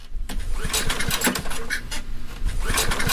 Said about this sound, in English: You're down in the basement holding a flashlight in your teeth trying to start a portable generator that has not run since 2022. It doesn't start.